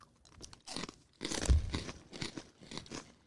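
Snyder's buffalo-flavored pretzel pieces being crunched and chewed, with many dense, brittle crunches in a steady, rhythmic run at moderate loudness.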